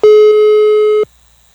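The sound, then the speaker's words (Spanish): A telephone busy signal sounds while someone is being called: one loud, steady, mid-pitched tone lasting about a second that then cuts off to near silence. “A lo mejor le entró otra llamada, porque le estoy marcando y no contesta.”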